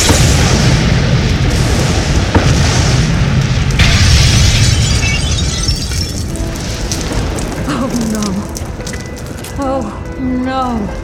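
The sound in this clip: A magical demon storm of fire and acid roars as a dense, loud rumble full of crackling blasts and booms, later joined by shrill, wavering tones that rise and fall.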